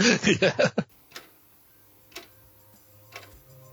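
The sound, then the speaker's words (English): A clock ticking slowly, about once per second. Faint, soft ticks follow a short burst of voice at the start. “Tick tock, tick tock. That's the sound of the clock.”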